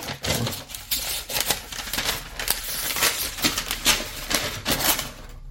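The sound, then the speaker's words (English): An 11-inch tablet is unwrapped from its packaging with continuous irregular crinkling, rustling and tearing, in quick, uneven bursts and no talk. “Now I'm going to unwrap the tablet. Try not to tear this too badly.”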